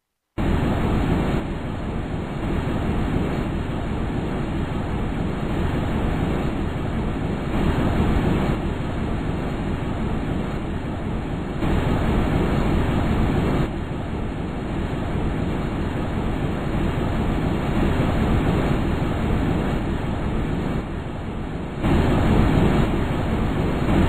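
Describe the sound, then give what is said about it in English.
A steady, dense roar of rushing air accompanies the Huygens probe's descent through Titan's atmosphere, with broad, unbroken noise that swells and eases slightly in surges and grows louder near the end. “They give a realistic recording of what a traveler on the Huygens probe would have heard during the ride down through Titan's atmosphere.”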